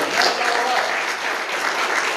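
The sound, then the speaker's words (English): A church audience claps hands during a water baptism service, a dense, steady burst of applause that stays loud and unbroken throughout. “And I believe that even before we get done with the water baptism, go ahead and give a good hand clap.”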